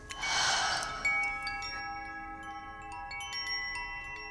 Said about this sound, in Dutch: Adem dankbaarheid in. En adem dankbaarheid uit.